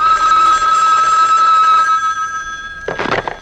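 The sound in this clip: Telephone ringing: a bright, sustained electronic ring with a buzzing, harmonic tone holds for about two seconds and then fades. After a short pause, a brief noisy burst follows.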